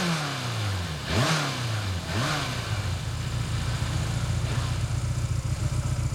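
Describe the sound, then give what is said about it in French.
A motorcycle engine revs twice in quick succession, its pitch sweeping up and back down each time, then settles into a steady, rough, throbbing idle. “C'est vrai qu'elle ronronne maintenant. Ah, vous voyez ce que je sais faire. Mais toutes les motos font comme ça, hein.”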